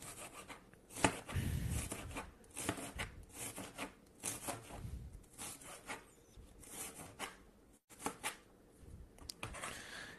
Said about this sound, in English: cutting onions, I might get teary in a bit.